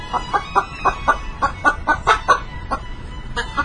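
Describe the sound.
A chicken clucking: many short, sharp clucks in a fast, slightly uneven run, moderately loud and alone.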